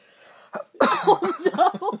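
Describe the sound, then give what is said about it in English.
A person clears their throat, starting with one short rough burst and then a longer run of loud, gravelly, coughing rasps in quick succession. “And, I was clearing my throat. My throat. My throat. My throat.”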